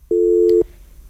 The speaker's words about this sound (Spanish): vamos con esta llamada telefónica. Aló, buenas noches.